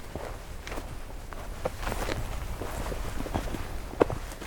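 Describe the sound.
Footsteps of someone hiking toward a lake, a steady run of soft, crunching steps over a low, broad outdoor rustle, with one sharper knock near the end.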